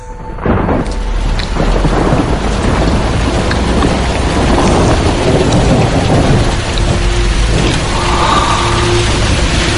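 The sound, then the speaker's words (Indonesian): A heavy downpour with thunder: dense, loud, continuous rain hiss and patter with deep rumbling underneath, steady throughout and with no voices. “aku terbangun oleh suara hujan yang sangat deras saat itu. Hujan nih.”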